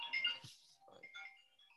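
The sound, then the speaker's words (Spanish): A phone ringtone for an incoming call: a brief electronic melody of a few bright tones, fairly quiet, with no voices. “Están marcando a mi hermano.”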